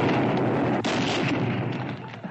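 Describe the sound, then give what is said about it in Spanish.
Gunshots come from a stranger on horseback riding into a town in a 1972 western film. A sharp crack cuts through a dense, loud, continuous roar of noise. “Tiempo después, un extraño jinete entra en el pueblo disparando.”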